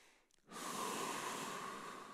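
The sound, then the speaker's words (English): A deep breath drawn in during a guided moment of prayer: a single long, airy inhale lasting well over a second, soft and alone with no voices. “Just take a second to breathe in.”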